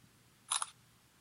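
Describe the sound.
A camera shutter clicks once to take a photo: a brief, crisp double snap against a quiet background.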